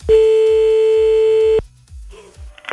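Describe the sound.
A telephone line tone sounds while a caller rings someone back: one loud, steady, mid-pitched tone holds for about a second and a half, then cuts off abruptly into near quiet with faint low thumps.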